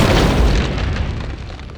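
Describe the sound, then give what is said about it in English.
A loud explosion as a robot blows apart in a blast of fire and ice: one broad, rumbling boom that fades steadily over about two seconds, with no voices. “Boom! With its energy shield down, robot exploded into a blast of fire and ice.”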